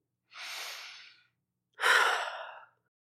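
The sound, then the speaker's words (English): A slow, deep breath in two long, airy, breathy sounds separated by a short pause, the second fuller and louder, heard alone with no talk. “Let's just take a nice deep breath.”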